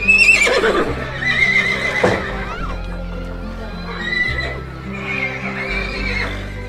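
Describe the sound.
A horse pulling a carriage whinnies in a few loud, high neighs that rise and fall. Lower snorting and rumbling sounds follow between the calls.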